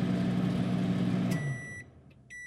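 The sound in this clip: A microwave oven runs with a steady low hum, then the hum cuts off and bright electronic beeps follow, one long tone and then another.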